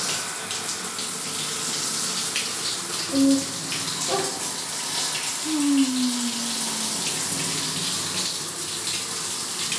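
Water runs in a bath while someone is being washed, a steady broad hiss of flowing water with a couple of brief squeaky tones near the middle.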